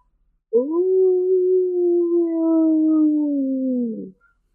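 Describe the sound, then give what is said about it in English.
A wolf howls in one long, steady, sustained wail that holds a level pitch and sags slightly at its end before cutting off, loud and alone with nothing else over it. “ooh, just wailing on the wind. Oh God. Just wolf sounds”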